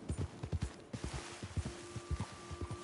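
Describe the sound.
Horse hooves clip-clop in the video game Red Dead Redemption 2, a quick, steady run of rhythmic hoofbeats that keeps an even pace throughout.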